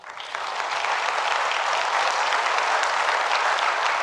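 An audience in a church applauds to welcome a retired pastor to the front, a dense, even wash of many hands clapping that swells in quickly and holds steady throughout.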